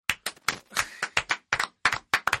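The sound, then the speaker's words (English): A quick round of applause from a small group, many sharp separate claps in an irregular, uneven rhythm, fairly faint and heard alone without voices. “Just a quick round of applause for Discovery Turbo.”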